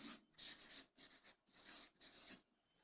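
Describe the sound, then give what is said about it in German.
Writing on a board makes faint, scratchy strokes in a few short rasping bursts separated by brief pauses, with no talk over them. “Ich schreib's mal an.”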